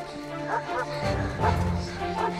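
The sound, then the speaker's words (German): A dog barking as it runs at children, a few sharp barks and yips spaced across the moment, fairly loud. “Der Hund rennt auf sie zu. Die Kinder flüchten.”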